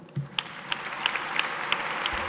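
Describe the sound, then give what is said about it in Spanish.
Applause from an audience at a ceremony honoring a Spanish railway company and its workers, a dense steady wash of clapping with a few sharper single claps standing out. “Ahí queda la ovación cerrada para una empresa que dice apuesta por la innovación y por el despliegue técnico”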